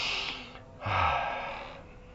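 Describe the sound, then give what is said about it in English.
A breathy sniff drawn in through the nose after nasal drops. A soft airy breath comes first, then a louder intake swells quickly and tapers away, with no talk. “Another drop of it, stick it in your nose. And massage it around. And breathe in.”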